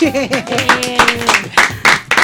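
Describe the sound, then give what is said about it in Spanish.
Scattered claps break out amid lively, overlapping voices, a few sharp bursts of clapping punctuating the talk rather than a steady ovation. “Sí, señor, un aplauso.”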